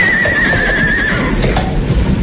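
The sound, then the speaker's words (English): A tired horse pulling a car along a stormy mountain road gives a single high, wavering whinny that fades after about a second, over a constant loud rushing noise. “I think the horse must be tired, sir.”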